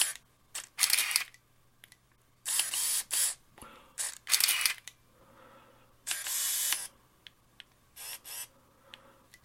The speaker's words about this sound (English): And this is the Minolta 7000 AF. So, as you could hear from the noise, it is an AF camera.